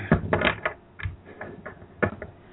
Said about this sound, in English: I'm going to shuffle the cards and tell you I'm picking up at the same time.